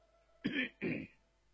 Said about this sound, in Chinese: 允祥在一旁咳嗽了一声